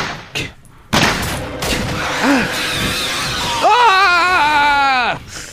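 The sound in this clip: Gunfire in an animated scene where a character is handed a gun to shoot an attacker. A sharp burst of loud shots comes early, followed by dense sustained noise and a high, strained yelling voice.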